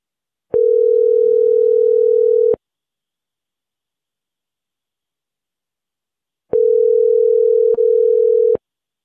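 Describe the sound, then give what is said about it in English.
A telephone tone after a call is hung up: two long, steady, even buzzes of about two seconds each, separated by several seconds of silence. “Okay. Well, it just hung up.”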